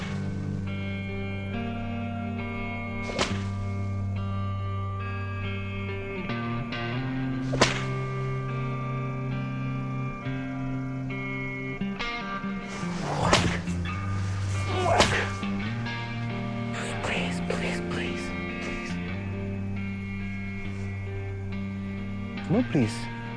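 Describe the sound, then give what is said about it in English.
A whip is lashed with full force against the ground, producing a few sharp, loud cracks spaced apart over talk and a sustained droning background. “Grimacing, he wields the whip with full force against the ground.”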